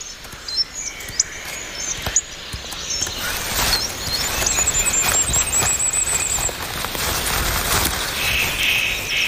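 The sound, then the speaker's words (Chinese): Sharp snaps of a spruce twig broken off by a male wood pigeon gathering nest material, a few brief dry cracks with faint bird chirps in the background. “一只雄性斑尾林鸽折断了一根云杉细枝，它在收集树枝和叶子，建造一个对于繁衍而言很重要的东西——鸟巢。”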